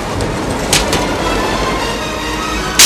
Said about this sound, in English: onto a boarding platform and runs alongside a moving subway car.